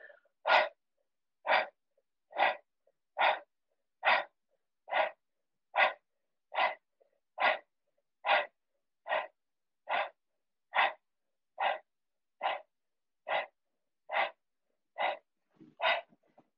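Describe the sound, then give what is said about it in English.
Forceful exhales blown out through the mouth during a breathwork exercise, like blowing out birthday candles. Many short, sharp breathy bursts repeat at an even, steady rhythm, each separated by a brief silence, with no talking. “We're going to blow from our mouth and inhale and an exhale, like we're blowing out birthday cakes. We're going to do that 20 times.”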